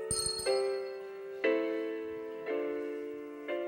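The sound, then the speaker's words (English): Handbells ringing in a bell choir: a cluster of quick strikes, then several bright chords at roughly one-second intervals, each sustaining and slowly decaying, with no voices. “then we are going to have a nice bell choir time together.”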